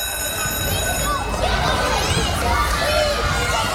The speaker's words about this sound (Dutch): Ja, dit is natuurlijk het vertrouwde geluid van een basisschool.